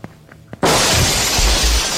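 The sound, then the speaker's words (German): A glass window shatters as a woman jumps through it: a few light knocks, then a sudden loud burst of breaking glass that continues as a sustained crash of falling shards. “Sie blickte mich lange und eindringlich an. Dann nahm sie Anlauf und sprang aus dem Fenster.”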